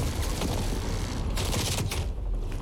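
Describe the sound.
Gunfire rattles in a video game as fairly faint, sustained bursts of rapid shots, with no voices over it.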